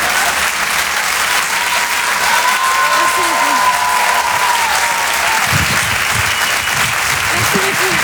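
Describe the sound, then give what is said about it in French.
Audience applause for a comedian at a comedy club, a strong and steady burst of clapping that runs throughout, with a few voices rising faintly through it. “On peut l'applaudir très fort, Marine Baousson, en direct et en live sur la chanson.”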